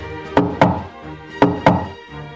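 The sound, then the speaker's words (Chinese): Knocking on a door on a summer morning: four solid knocks in two quick pairs, with a short pause between the pairs, over a faint steady tone. “这夏天的早晨，屋子外面传来一阵敲门声。”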